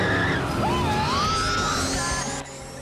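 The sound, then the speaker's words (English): Tyres squeal as a car spins round in traffic, a wavering, gliding whine over a steady roar of engine and road noise that cuts off abruptly near the end. “gets out of the traffic and spins the car round”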